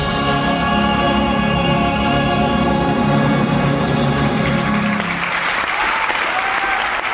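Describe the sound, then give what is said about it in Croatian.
A standing ovation greets the finale of the musical Rebecca, staged with soloists, an orchestra and a choir. The final sustained orchestral chords ring over rising applause and cut off near five seconds, leaving dense, loud clapping on its own. “Poslednje taktove finalne scene mjuzikla Rebeka, 10 solista, 28 članova orkestra, 23 horskog ansambla pod upravom Đorđa Stankovića, publika je pozdravila na nogama.”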